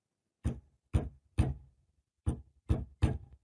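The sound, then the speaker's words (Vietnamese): Someone pounds on a coffin lid from inside: six heavy, dull knocks in two groups of three, with a short pause between, against near silence. “Tiếng người đập vào nắp quan tài đòi chui ra, cảm tưởng như mấy cái đinh đóng cũng đang sắp bung ra vậy.”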